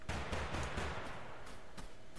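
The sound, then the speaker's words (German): Distant gunfire in the video game Totally Accurate Battlegrounds crackles as a rapid series of sharp shots, with a dull rumble behind them that lasts about two seconds. “Da drüben ist einer. Da, ist einer. da drüben wird geballert. Verdammt, ich versteck mich.”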